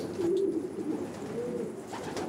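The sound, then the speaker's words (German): Pigeons coo in a pigeon loft: low, soft, rolling calls repeat over a steady murmur of other birds, with no talking. “Seiner Erfahrung nach fliegen diese konzentrierter zurück zum Taubenschlag. Die Weibchen lassen sich nicht so leicht ablenken.”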